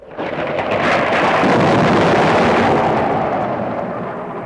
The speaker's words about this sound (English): Waves crash onto the rocks. Water funnels into narrow channels and rock pools.